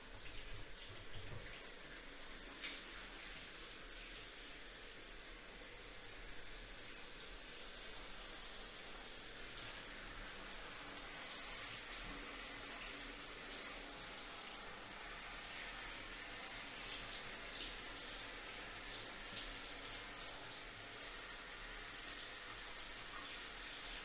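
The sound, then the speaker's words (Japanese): Water pours steadily to rinse someone at a bath before they get into the tub. It is a continuous, even splashing hiss with no pauses or talk. “はい、流しますよ。”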